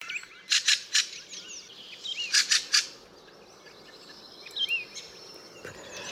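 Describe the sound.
A bird from a species known as a poor singer gives clusters of high, scratchy chirps and short trills in two loud bursts, followed by fainter scattered notes, with a soft insect-like hiss in the background.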